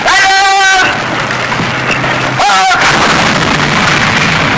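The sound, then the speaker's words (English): An artillery battery fires north of Suwon, Korea, during the Korean War. Heavy, rumbling blasts break out and are followed by sustained roaring noise that stays loud throughout. “This is John Rich with an artillery battery north of Suwon,”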